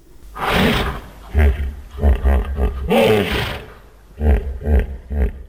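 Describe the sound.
Deep grunting roars of a 16-year-old hippopotamus sheltering in an open elephant enclosure at the Tbilisi zoo after a flood come in a series of loud, low, throaty bursts separated by short pauses.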